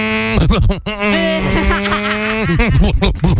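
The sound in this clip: A voice imitates a semi truck and then loud car exhausts, producing revving vocal rumbles with repeated pitch sweeps and a long held droning note in the middle.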